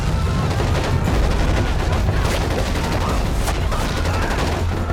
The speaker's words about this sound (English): The army enter the village with weapons blazing.